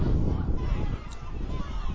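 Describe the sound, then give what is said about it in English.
Wind whipping around a press box shield at a night football game, a continuous rough low roar that buffets and gusts unevenly throughout. “Yeah, that sound you hear in the background is the wind whipping around the shield tonight.”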